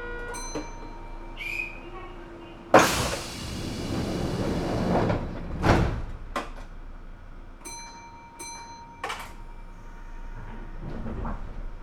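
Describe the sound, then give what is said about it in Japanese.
Train doors closing aboard a Japanese rail service: bell-like chime tones ring at the start and again near the end. Between them, two loud broad rushing bursts rise above a steady rumbling background. “扉が閉まります。ご注意ください。”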